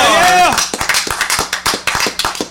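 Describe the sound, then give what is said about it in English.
A round of applause in a studio comes from a handful of people clapping in uneven, fairly loud, distinct claps. A short falling whoop from a voice comes just before. “Can I get a big round of applause for BTL Breaking the Law in the studio?”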